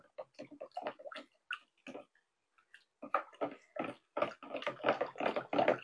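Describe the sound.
Finely ground alum powder is stirred into water with many quick scraping, clinking strokes in uneven bursts, a brief lull near the middle, then a denser, faster run of strokes.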